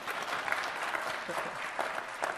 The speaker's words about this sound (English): Round of applause. Come on.